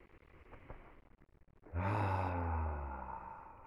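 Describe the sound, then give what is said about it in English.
A deep breath during a guided meditation: one long, loud sighing exhale that starts abruptly and slowly trails away, with quieter breathy sounds before it. “letting the eyes close, finding the breath, noticing where it is, and taking a few deep breaths.”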